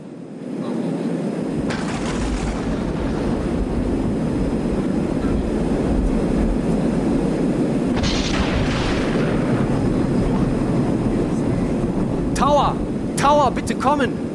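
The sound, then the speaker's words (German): Steady, loud droning roar of an airplane in flight with a failing left engine, a dense low rumble that holds on without a break from the second second to the end. “Wir haben ein schweres Problem mit unserem linken Triebwerk.”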